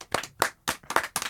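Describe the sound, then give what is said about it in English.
Studio applause: sparse hand clapping in about five short bursts, each a quick cluster of claps separated by brief gaps. “Can we get a studio applause?”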